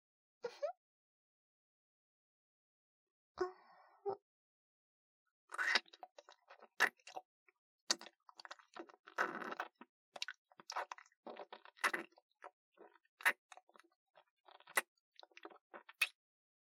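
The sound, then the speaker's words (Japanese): Wet kissing and smacking mouth sounds with tongue and saliva: two short bursts and a pause, then a long run of many quick, sticky clicks and smacks, fairly faint and without talk. “じゃあ、言ってくれたご褒美に、ラブラブくちゅくちゅしよっか。”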